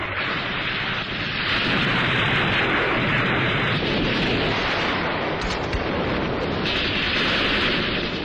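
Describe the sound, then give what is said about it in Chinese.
Gunfire and explosions fill a battle during a river crossing. Loud, dense blasts and shots merge into one unbroken roar throughout, with no clear gaps and no speech. “连长魏德胜向敌人猛烈射击”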